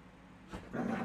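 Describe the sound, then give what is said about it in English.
Faint dog sounds from one of two dogs in a home: a short burst, then a longer, slightly tonal noise that grows a little louder near the end. “In the background you may hear two dogs. Not normal dogs.”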